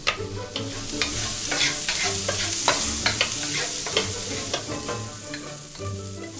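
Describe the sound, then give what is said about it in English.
Shallots and garlic frying in a pan over medium-high heat give a steady sizzle, with many sharp crackles and pops and the scrape of stirring throughout. “The first step is I'm going to cut some shallots. Then fry them with a little bit of garlic on medium-high heat.”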